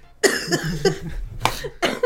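A smoker's coughing fit: a rapid run of several harsh, raspy coughs, loud and close together, with short rough gasps between bursts.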